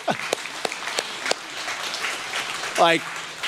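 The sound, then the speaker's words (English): Church audience applause: a steady, dense wash of many hands clapping, with a brief voice cutting in near the end. “Can we all just clap for a moment, right?”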